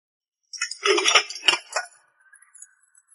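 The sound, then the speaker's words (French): Dishes clinking as they are stacked into a sink, a quick cluster of bright, overlapping clinks and rattles that thins out into a few faint taps. “Les robots empilent la vaisselle dans l'évier.”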